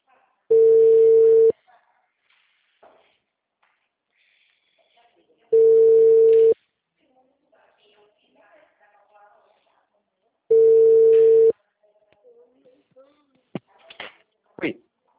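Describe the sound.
An outgoing telephone call rings with three long, steady ringback tones, each about a second long and evenly spaced several seconds apart. A few faint clicks and small noises follow at the end.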